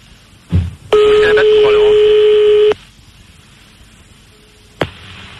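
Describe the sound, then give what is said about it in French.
A fax machine tone answers a phone call: one loud, steady electronic tone holds for about two seconds, set between a brief thump before it and a sharp click after. “Allô? Il a mis le fax, le salaud. Tu peux éteindre.”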